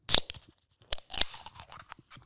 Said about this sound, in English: All right, I'm going to attempt to open this can on camera.